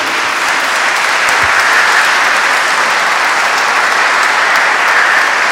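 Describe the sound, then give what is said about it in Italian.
Wedding guests applauding the newlyweds right after their kiss: loud, even, sustained clapping from a crowd with no break. “Giratevi che non vanno visti bene, giratevi di là, fate un bel applauso.”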